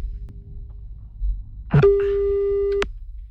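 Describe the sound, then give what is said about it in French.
A telephone line rings as a call is placed: one steady electronic tone lasting about a second, loud and clean, preceded by a faint shorter tone and a click over low background hiss. “Alors là, ça sonne pour le dernier tour de Romano. Ultimate tour. Ça sonne, on va peut-être appeler un autre.”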